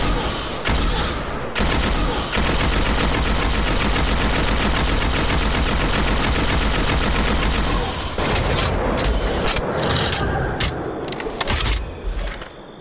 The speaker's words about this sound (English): It's an ARC heavy machine gun. And again, you know, let's listen.